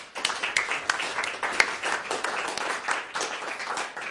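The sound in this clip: An audience applauds to welcome a professor giving a talk. The clapping is brisk and continuous, with many sharp individual claps, and it stays fairly even throughout without any speech.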